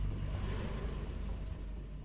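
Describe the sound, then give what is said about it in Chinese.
A car engine rumbles in a low, dense, continuous roar that holds level throughout, with no clear start or pull-away, and no voices. “车子突然一下就发动了。随后，他们就头也不敢回的一路飞车逃走了。”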